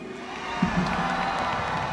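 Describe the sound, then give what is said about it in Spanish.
A concert audience applauds and cheers at a live music show, a dense, steady wash of clapping and scattered shouts that holds at a moderate level throughout. “Quiero darle un aplauso a mi padre, el maestro Humberto Pavón.”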